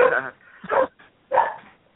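A dog barks in a few short, rough bursts with brief gaps between them, sounding muffled and narrow in tone, with another bark just starting at the end.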